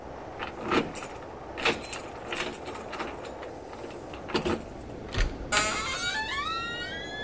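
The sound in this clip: Keys jangle in several short, separate bursts, and a squealing creak follows near the end.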